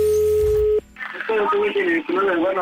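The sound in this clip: A single steady ringing tone sounds on an outgoing telephone call, lasting under a second, then cuts off and a voice speaks over the line.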